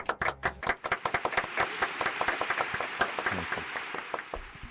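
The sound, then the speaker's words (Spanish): Applause breaks out as many overlapping hand claps form a dense, continuous patter. It holds at a fairly even level for several seconds. “Chicos, por favor, el aplauso feriante merecido para los 59 segundos.”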